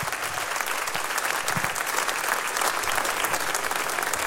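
Audience applause for a jazz band and its guest flute and vocal performers: steady, dense clapping that holds at an even level throughout, with no voices over it.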